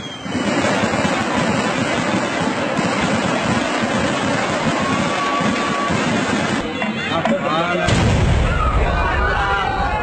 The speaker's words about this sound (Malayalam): വെടിക്കെട്ട് തുടങ്ങിയല്ലോ. വാ വാ, നമുക്കും വെടിക്കെട്ട് കാണാൻ പോവാ.